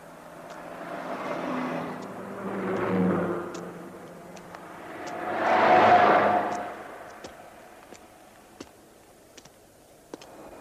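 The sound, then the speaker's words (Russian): A three-door luxury car drives by: soft engine noise swells and fades a few times, with the broadest and loudest swell in the middle. A few faint clicks follow. “Мимо Ивана проезжает трехдверная элитная машина. Тормозит, дает задний ход.”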